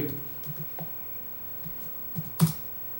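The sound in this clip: Faint, irregular clicking of a computer keyboard being typed on, with a few scattered keystrokes, a sharper cluster near the end, and a low background murmur.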